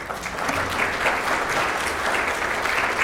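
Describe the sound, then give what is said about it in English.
Audience clapping during a church Mass, a steady, full round of applause from many hands that holds a fairly even level for the whole stretch. “She started all that clapping.”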